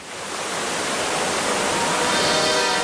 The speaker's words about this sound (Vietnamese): Đó là tiếng thác nước.